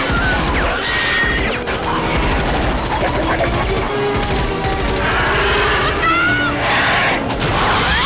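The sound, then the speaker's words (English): Rapid gunfire rips at advancing bug creatures in a hostile film battle scene: dense, loud, continuous bursts and crashing impacts with no pause throughout. “they fire on the advancing bugs”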